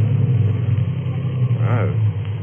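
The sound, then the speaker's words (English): A choked car engine on the road, running rough and sputtering with a low, steady rumble that stays loud throughout and has slight unevenness in its drone. “So I choked the car.”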